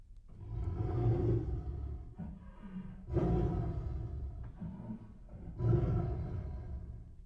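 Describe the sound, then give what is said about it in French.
A tiger gives three deep, loud, rumbling roars, evenly spaced, with quieter low grunts or breaths between them. There is no talking. “Qu'est-ce que c'est? C'est le tigre.”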